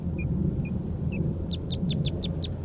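A Red Crossbill sings on Price Mountain, giving three spaced short chirps and then a quick run of six sharp, high notes over a steady low rumble.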